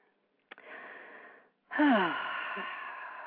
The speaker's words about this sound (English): So I invite you to close your eyes and take a deep breath with me.